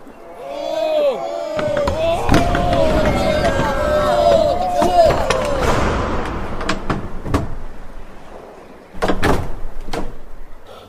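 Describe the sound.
Heavy thuds and bangs of a strong, solid door being forced, with many sharp knocks in a dense run, then a brief lull before a loud final burst of blows.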